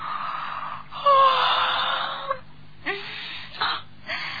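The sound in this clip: A voice acting out a yawn for a character who has just woken: a drawn-out, breathy, groaning tone, then a few short exhaled breaths, with no other sounds.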